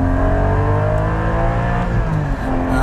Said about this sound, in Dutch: Maar goed, daar gaat het niet per se alleen maar om bij deze 718 Cayman GT4. Want de Cayman GT4 heeft namelijk een party trick. En je hoort het misschien al wel. Hij maakt lekker veel herrie.